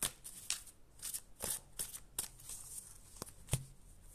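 Oracle cards being shuffled by hand, giving a run of quick, papery riffling bursts with a few sharper snaps, fairly soft and without talk.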